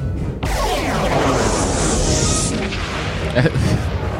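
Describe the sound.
An alien spaceship fires its weapons in a science-fiction sound effect: a sudden loud blast opens into a sustained roaring, hissing rush, with another sharp hit near the end.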